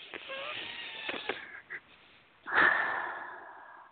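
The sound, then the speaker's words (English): A deep breath: a long, noisy, airy sound with a louder breathy swell near the end that gradually fades. “Take a nice deep breath.”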